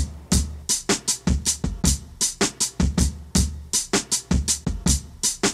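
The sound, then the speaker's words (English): Chopped-up drum sample taken from a 1969 song: many sharp, punchy hits with deep kick thumps, cut into a rapid, stuttering pattern that repeats loudly on its own without any voices. “These drums are chopped up to sound like this.”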